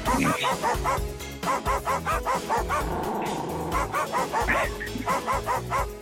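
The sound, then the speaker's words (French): Dogs bark and yip in a quick, rhythmic run of many short calls with a few higher whimpering notes, arranged as a song over a musical backing. “C'était un chien très discret.”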